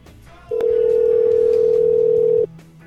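A telephone line tone during a call being placed: one loud, steady, unbroken tone lasting about two seconds, with a faint click near its start and quiet background noise before and after.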